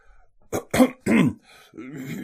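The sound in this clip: A man clears his throat in a few short, rough bursts, then gives a soft, low hum of voice.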